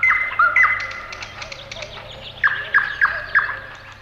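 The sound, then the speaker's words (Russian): A nightingale sings at the edge of a ravine after dark, opening with clear whistled warbling notes, then four evenly spaced, sharp chirps that stand out against a quiet background. “дед Аук услышал на краю оврага незнакомый ему птичий голос. Чистый, прозрачный, как роса.”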